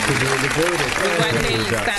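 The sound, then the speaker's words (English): Studio audience applause during a hip-hop radio show with guest musicians, a steady patter of clapping running under lively talking voices throughout. “Hold tight the applause. That was nice.”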